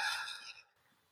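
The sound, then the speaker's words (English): A single long breathy exhale during a guided breathing exercise, loud and airy at first, then trailing off into near silence after about half a second. “Inhaling together, feeling your body expand if that feels good to you, and then releasing that air with an exhale.”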